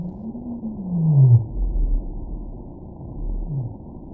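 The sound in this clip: Deep, moaning blue whale call picked up by an undersea cable: a long tonal downsweep slides lower over a low rumble, then a shorter, fainter downsweep follows.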